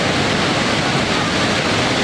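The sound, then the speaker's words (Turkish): A waterfall roars in a loud, continuous rushing wash of falling water that stays steady and unbroken throughout, with no voices. “Hayatımda gördüğüm en güzel şelale.”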